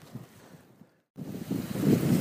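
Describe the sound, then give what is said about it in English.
An icy northerly wind blows across an open upland plateau, rumbling and buffeting against the microphone. It drops out briefly midway, then returns stronger and gustier. “We've made it to Kinder Downfall now, and we've got a northerly wind today, so there's a really icy cold breeze coming across the plateau.”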